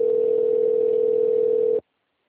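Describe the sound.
A telephone ringing tone plays while a call is transferred: a single steady, mid-pitched electronic tone holds unbroken for almost two seconds, then cuts off into silence.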